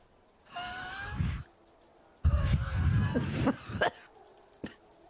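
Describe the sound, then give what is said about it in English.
Wheezing breaths from a person with asthma exhaling all their air: two long, strained, whistling breaths, the second rougher and broken by a few catches, followed by a short faint click. “I have asthma. That's what that sound was. Sorry, everyone. She wouldn't sound like that, but I sound like that because I have asthma.”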